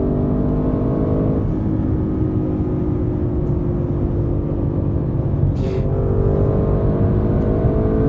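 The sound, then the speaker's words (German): Audi RS6 engine held at full throttle near its 7000 rpm redline at about 260 km/h. It gives a loud, steady, buzzing drone over constant road and wind noise. “Und der Soft Limiter, der im Stand die Drehzahl begrenzt, äh, ist auch vergessen hier bei Vollgas äh, sind wir jetzt beim roten Bereich bei 7000 Umdrehungen”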